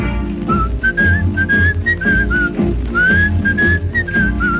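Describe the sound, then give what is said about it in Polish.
A whistled tune rides along with a song's rhythmic backing, two lilting phrases of wavering, slightly rising notes separated by a brief pause, clear and prominent above the accompaniment. “pogwizduję do taktu swe piosenki.”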